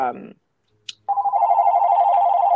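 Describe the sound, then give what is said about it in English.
Desk telephone ringing: a steady, warbling electronic ring that starts after a short burst of speech and a faint click, then continues loud and unbroken to the end. “I'm on my desk. You're on this. And this phone never rings.”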